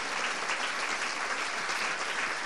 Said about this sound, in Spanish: Dele un aplauso ahí para que se calme un poquito.